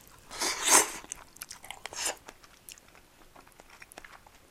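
Crunchy chewing of food seasoned with shichimi chili pepper, the food not too hard. Two louder crunching bursts stand out early on, followed by a few softer, scattered chewing sounds, with no talking.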